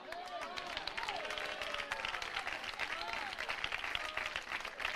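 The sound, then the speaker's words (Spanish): Applause from a church audience during a sermon, a dense, steady wash of clapping that holds for about five seconds with a few raised voices and cheers mixed in. “Hermano, ese aplauso es para el alcalde de Alexandría, ¿verdad?”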